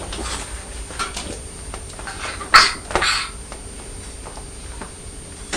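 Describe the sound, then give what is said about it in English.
A small boy coughs twice in quick succession, two short, rough bursts close together, fairly quiet and with no talk around them. “You've got a cough like Daddy's.”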